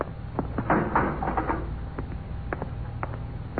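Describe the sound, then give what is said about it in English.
A spaceship's inner hatch opens in a mechanical sound effect, with a quick string of rattling clicks and knocks, louder at first and then thinning into sparse taps. “Stand by to open the inner hatch. I'll apply the repeller ray. Yes, sir. Open the hatch.”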